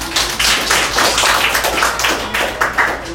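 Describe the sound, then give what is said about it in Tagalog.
An audience claps during a church service: a thick, sustained round of overlapping claps, fairly loud and even throughout. “Maaari ba natin palakpakan ng Lord sa bagay na yan?”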